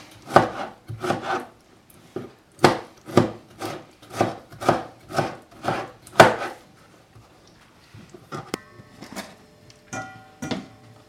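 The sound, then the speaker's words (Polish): Knife chopping tomatoes into smaller pieces for a mozzarella salad: a steady run of many sharp knocks, followed by quieter, irregular cuts and scraping. “Każdą partię pomidora przegarniam palcami, żeby sprawdzić, czy nie zostały jakieś większe niepokrojone kawałki. Jeśli tak, to Kroję je na mniejsze części.”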